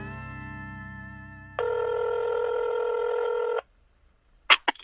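Telephone ringback tone on an outgoing call: one long, buzzy electronic ring lasting about two seconds, followed by silence and a few short clicks.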